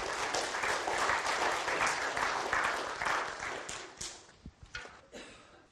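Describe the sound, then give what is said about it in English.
Audience applause: many hands clap loudly at first, then the sound thins out into a few scattered, separate claps near the end. “Let's all give Steve a hand.”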